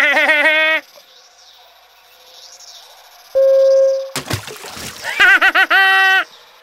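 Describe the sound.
Splash of someone falling into a pond: a sudden loud burst of water right after a held high tone, with high, voice-like calls before and after.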